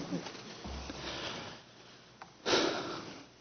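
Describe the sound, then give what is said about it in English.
A nervous person takes a deep breath, a faint, airy inhale stretching over the first second or so, followed by a sharper, louder exhale a moment later. “Just take a deep breath.”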